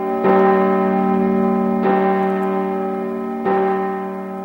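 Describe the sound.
A church bell in a bell tower, rung by pulling a rope, strikes three evenly spaced times. Each loud, rich stroke blooms into a long, humming ring that carries on under the next.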